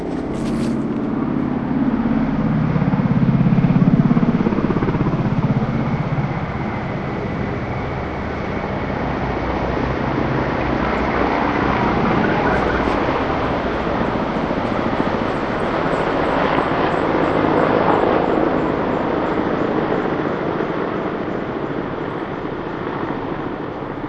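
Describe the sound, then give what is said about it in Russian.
Military helicopter flying overhead at night above Kursk, Russia, during heightened military air activity: a continuous, broad engine roar that swells early on, then holds steady and loud throughout, with no voices. “В небе усилилась активность военной авиации. Вот летит вертолет.”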